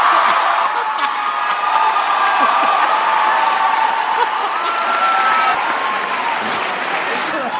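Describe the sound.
A Seattle audience gives loud, sustained applause to welcome a guest on stage, with scattered whoops and cheers rising over the steady clapping, which eases slightly toward the end.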